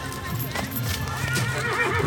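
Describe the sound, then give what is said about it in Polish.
Horses neigh and whinny while hooves clip-clop steadily in a warm-up arena before a horse show, with Małopolski, Arabian and Thoroughbred horses being readied. The whinnies rise over a continuous, fairly loud bed of hoof beats and movement. “Co widzimy? Widzimy konie przygotowujące się do pokazu.”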